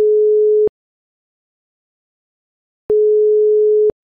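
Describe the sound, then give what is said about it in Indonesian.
Telephone tone as a call is being placed: two steady, flat, mid-pitched beeps, the first about two-thirds of a second and the second about one second long, separated by roughly two seconds of silence. “gue call dulu ya sekarang”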